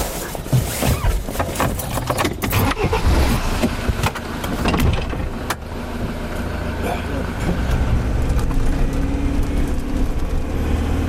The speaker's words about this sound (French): On décolle tout de suite à bord de son 4x4 de baroudeur, direction les souvenirs de ses premiers affûts estivaux.